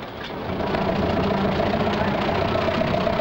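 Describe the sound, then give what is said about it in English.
Vehicle engines idle as trucks piled high with belongings pull out of a transient camp along a dirt track, giving a steady, continuous low rumble that holds at an even level throughout. “an exodus of vehicles are leaving the transient camp, piled high with the meager possessions of the dispossessed.”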